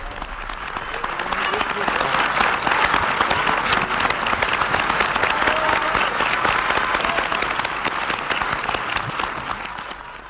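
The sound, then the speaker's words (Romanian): Applause in a radio play of a Molière piece, a king's court clapping for the actors: many hands swell in after a moment, hold a loud, dense patter, then taper off at the end. “Vino pe scenă, regele aplaudă.”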